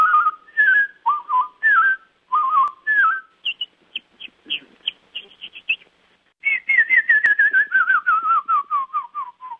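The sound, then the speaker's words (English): People whistling imitations of songbirds: hermit thrush, sparrow and canyon wren. Short slurred whistled phrases give way to quick, high chirping notes, then a long run of clear notes that steps steadily down in pitch, with no talking. “listeners who'd mastered impressions of songbirds, and here are the riffs of the hermit thrush, the sparrow, and the canyon wren.”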